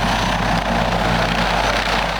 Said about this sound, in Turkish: Polisin sahadaki reaksiyon hızı da en üst seviyeye çıktı. T-129 Atak helikopteri,